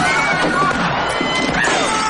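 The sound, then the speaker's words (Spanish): Saloon customers in a Western scene shout and yell all at once, a dense, loud, continuous wall of overlapping voices with no clear pauses for the whole stretch. “Los clientes comienzan a gritar”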